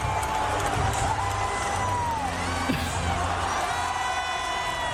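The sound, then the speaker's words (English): Crowd cheering at a Lions game at the Gabba as a child pitch invader runs onto the field: a sustained, loud roar of many voices with shouts and whoops, rising to one brief sharper spike partway through. “There was a pitch invader last night at the Gabba. This might be the loudest cheer of the night at the Lions game. Have a listen to this.”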